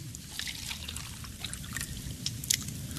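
Water trickles and drips as a cup of water is poured, a faint steady splashy trickle with a few brighter drips near the end.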